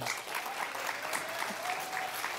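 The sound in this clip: Audience applause welcoming a guest, a local entrepreneur in Lake Charles, as dense, steady clapping that continues evenly throughout without a break.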